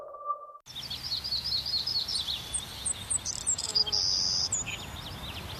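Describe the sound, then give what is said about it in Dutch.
Birds whistle and chirp in a busy chorus of many bright, quick calls that continue steadily throughout, following a brief steady tone at the very start. “Blijf genieten van het gefluit van vogels.”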